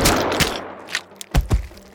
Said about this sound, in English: You shot him 3 times and he didn't go down.